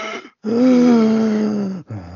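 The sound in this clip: A voice imitates a very unwell man wheezing as he drives a van: a short rasp, then a long, sustained, groaning wheeze with a steady low pitch, and another begins.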